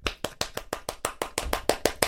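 Hands clap in a quick, evenly spaced run of many sharp, bright claps at a steady rhythm, with no other sound between them.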